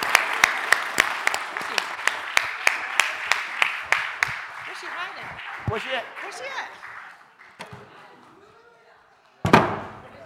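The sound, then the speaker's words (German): Birthday applause from a church audience, with loud, distinct claps at first that thin out and fade over several seconds, voices mixed in, and a single heavy thump near the end. “let's still give my wife a happy birthday hand.”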